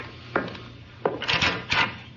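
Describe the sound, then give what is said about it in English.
A closet is opened: a few wooden knocks and thumps mix with scraping rubs as the doors and contents are handled, in short uneven bursts. “Open that closet.”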